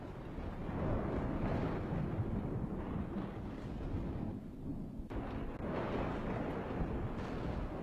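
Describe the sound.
Thunder and howling wind before rain form a continuous, heavy low rumble with broad gusting noise. It holds steady throughout with no distinct separate claps and no voices.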